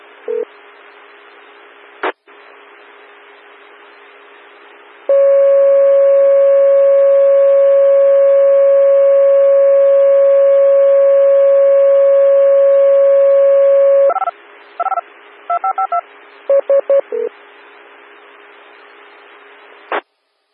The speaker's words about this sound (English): Pager tones, I was just attempting to reset the weather radio.